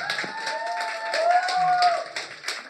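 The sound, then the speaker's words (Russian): Audience applause breaks out at a live event, a steady patter of claps with brief sharper bursts and a faint tone running underneath. “Давайте дадим аплодисменты.”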